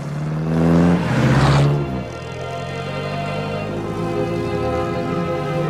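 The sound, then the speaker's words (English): A motor car's engine hums as it drives along a road through wheat fields. The tone is steady and droning and swells louder early on, then settles into an even, sustained hum. “A motor car drives along a road through fields of wheat. In the distance, a domed roof peeks out over trees. The car speeds down a driveway away from a stone archway.”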